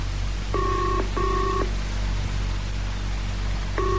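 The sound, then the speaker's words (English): A telephone rings with an incoming call: two short electronic ring bursts come in quick succession, then a pause, then another ring begins, over a steady low hum and hiss. “There's a call coming through now, sir. Right. Switch it through the loudspeaker.”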